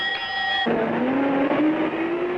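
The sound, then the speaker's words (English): Bus driving off, its engine a loud, continuous roar whose note climbs steadily in pitch as it pulls away. “what was that bus doing here?”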